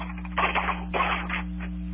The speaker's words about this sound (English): these are solid 1 ounce gold coins. Well, that's a nice sound. American Eagles, and you can hear that is currency.